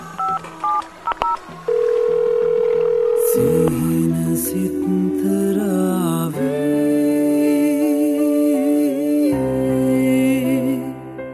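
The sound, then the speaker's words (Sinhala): Telephone tones as a call is made. A few short touch-tone keypad beeps come first, then long, loud, steady electronic tones that shift in pitch several times. “ගැමුණුයි නන්දිතයි එහාට යන කල් ඉඳලා සජි විහඟට call එකක් කරන් දුන්නා”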